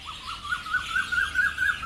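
Tropical birds chirp in a botanical garden in Singapore, a steady run of many short, high tweets repeating in a quick, even rhythm over a soft background hiss.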